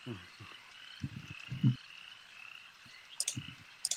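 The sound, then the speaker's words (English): Frogs of unusual size croak in short, deep, throaty bursts that come in several clusters. A steady high drone runs underneath, and a few sharp high chirps sound near the end. “Frogs of unusual size.”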